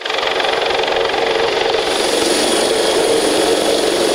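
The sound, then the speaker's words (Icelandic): A coast guard helicopter lands outside a concert hall, its engines a loud, continuous roar with a thin high turbine whine that stays steady throughout. “Hátíðardagskráin hófst með miklum tilþrifum þegar þyrla gæslunar lenti fyrir utan Hörpu.”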